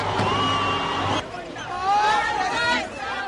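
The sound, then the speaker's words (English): A crowd of South Africans celebrating election results fills the air with steady cheering babble, high whoops and shouted voices rising and falling in waves. “That's the sound of South Africans celebrating election results.”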